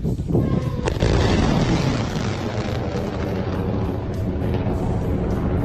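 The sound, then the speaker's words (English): A hypersonic interceptor missile test launch at an anti-ballistic missile range in Kazakhstan gives a loud, dense rumbling roar that holds steady throughout, with no voices. “The tweet included a video of the test launch, which showed the missile shooting from the ground at high speeds, leaving behind trails of smoke.”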